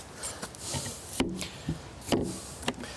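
A door is shut after the dogs have gone inside, making a few faint knocks and scraping thuds spaced a second or so apart, with a sharp clack near the end.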